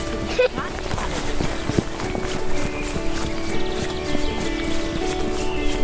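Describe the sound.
A group of people running during a group game: many irregular soft footfalls and scuffs over steady background noise.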